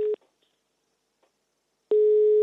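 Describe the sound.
Telephone line tone while placing a call: a short beep, then near-silence with a few faint clicks, then a steady tone that starts and holds to the end.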